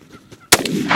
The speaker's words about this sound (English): All right, you got him. That was the longest shot I've ever done.